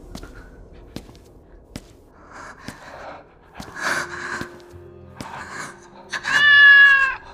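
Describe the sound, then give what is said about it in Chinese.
A Persian cat gives a single loud, drawn-out meow near the end, after a few scattered soft clicks and rustles. “猫叫声突然响起，一只圆润富态的波斯猫从佛像后跃下，从窗户口跳出去，瞬间不见踪影。”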